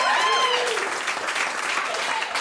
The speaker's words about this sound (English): I recently quit my day job. I think that deserves a round of applause.